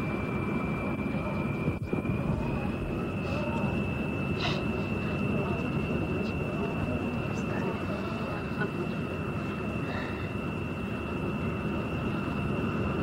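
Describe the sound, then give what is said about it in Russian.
Steady drone inside an airplane cabin, a constant broad engine hum with a thin high whine on top, running unbroken and even for the whole stretch, with one brief click early on. “Просыпается в кресле самолета.”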